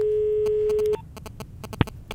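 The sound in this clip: Telephone ringback tone heard while a call is being placed: one steady, mid-pitched tone lasting about a second that cuts off abruptly, followed by faint clicks and light handling noise.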